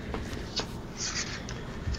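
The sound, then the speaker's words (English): Faint scratching of a pen writing on paper, a few short strokes and scrapes over a low background hiss. “I'm already writing the description as we're going.”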